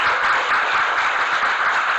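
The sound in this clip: Audience applause welcoming speakers at a talk: a dense, steady wash of many hands clapping together, even in loudness from start to finish, with no voices rising above it.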